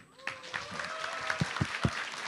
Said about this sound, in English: Give it a round of applause.